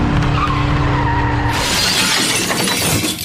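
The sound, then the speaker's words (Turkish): A car and a motorcycle collide at an intersection. An engine drone breaks into a sudden loud crash of shattering and scraping noise that continues to the end. “Seyir halindeki otomobille motosiklet kavşakta çarpıştı.”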